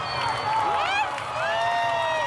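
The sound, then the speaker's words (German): A protest crowd in Iran cheers: high shouts and whoops swoop up and down in pitch over a bed of crowd noise. “Die Menge jubelt.”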